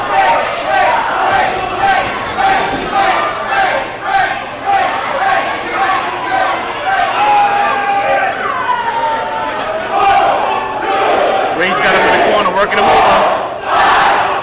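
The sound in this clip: A wrestling crowd chants a count aloud in unison. Loud rhythmic shouts repeat at a steady pace, and a general crowd roar sits beneath them.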